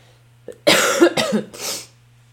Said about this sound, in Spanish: ¡Ay, me perdona por esta tocedera!